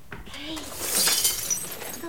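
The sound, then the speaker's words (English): A lamp shatters after being struck by a tennis forehand, a bright, loud crash of breaking glass that rises quickly and trails off in scattered tinkles, with a brief voice sound just before it. “She replaces the shattered lamp”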